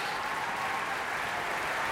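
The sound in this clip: An opera audience applauds the production team of director Klaus Guth with a dense, even clapping roar that stays steady and fairly loud throughout, with no booing.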